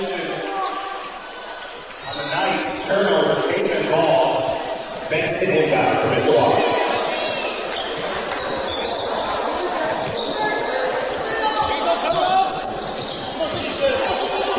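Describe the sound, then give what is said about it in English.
A basketball is dribbled on a court during a girls' game, with a double dribble called under the basket. The thumps blend into steady crowd noise, and people talk throughout. “dribbling underneath the basket, called for a double dribble”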